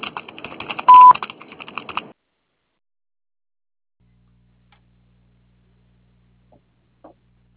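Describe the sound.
A telephone voicemail tone sounds as one short, steady, mid-pitched beep amid light clicking handset noise, followed by several seconds of near silence with a few faint clicks.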